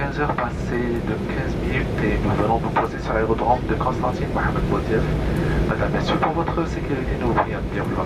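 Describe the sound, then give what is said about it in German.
An airplane approaches and lands at Mohamed Boudiaf airport in Constantine. A loud, steady engine roar runs throughout, with people talking over it. “Anflug auf Konstantin. Es ist Nachmittag. Landung am Flughafen Mohamed Boudiaf.”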